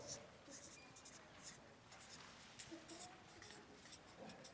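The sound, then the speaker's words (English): People writing out notes on paper during a church teaching session, a faint, steady scratching of pens with soft irregular ticks throughout. “So everybody write out, what is the gospel? Okay, you ready? Go.”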